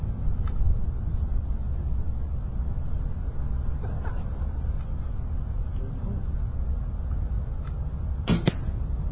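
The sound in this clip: Arrows hitting a target at 10 yards during an archery contest: a few faint, sharp knocks over steady low background noise, with the clearest quick double hit near the end.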